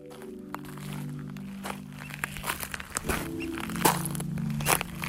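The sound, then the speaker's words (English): Footsteps walk outdoors on Portland Island, across the channel from Juneau, Alaska, with many crunching, crinkling steps on the ground at a steady pace, moderately loud against a quiet background. “right now I'm walking on an island just across the channel from Juneau called Portland Island.”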